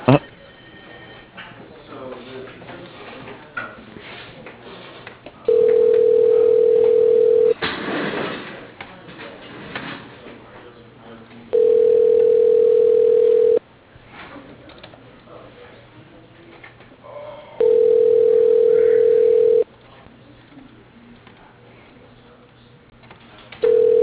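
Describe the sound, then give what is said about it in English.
Telephone ringback tone on a call being transferred: a steady mid-pitched tone comes in bursts of about two seconds, three full bursts and a fourth starting at the end, separated by longer stretches of low line noise. “Yeah, hold on 1 second. I'll transfer you to him.”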